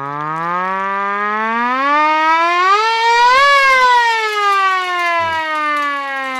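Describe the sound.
A hand-cranked siren winds up as the crank is turned faster. Its loud, droning wail climbs steadily in pitch, peaks, then eases slightly and holds, continuous and without voices.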